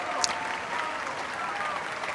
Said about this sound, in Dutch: En dit bravo geroep en applaus, het ging nog minutenlang door in de Plegelmusbasiliek in Oldenzaal.